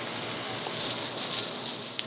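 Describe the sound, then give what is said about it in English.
Steak sizzling in a pan just after being flipped, a steady dense crackling hiss that holds at an even level throughout with small pops scattered across it. “Go ahead and flip the steak. There we go.”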